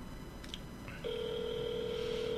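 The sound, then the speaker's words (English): Cell phone tones while calling someone: a couple of brief electronic beeps, then a steady, sustained two-pitched tone holding to the end, with no talk. “I'm going to try to see if I can get him myself on the cell phone”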